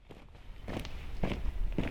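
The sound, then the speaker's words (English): Footsteps on a walk in the woods near Olympia, Washington: a steady series of soft crunching steps, moderately loud, with no talking. “takes a long walk in the woods surrounding her home in Olympia, Washington.”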